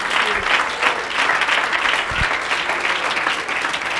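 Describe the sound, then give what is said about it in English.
An audience clapping its hands during a church service: sustained clapping from many people at a steady, moderately loud level, with a couple of low thumps. “Oh, clap your hands unto the Lord.”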